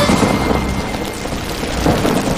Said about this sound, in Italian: Piove. Senti come piove. Madonna come piove. Senti come viene giù.